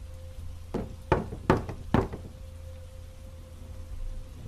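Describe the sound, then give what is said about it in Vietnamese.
Rhythmic knocking at night in a house, heard as four sharp, evenly spaced raps. They are fairly loud against a quiet background with a faint steady hum. “Lại thêm một lần nữa, nhịp gõ vang lên, nhưng lần này to và rõ.”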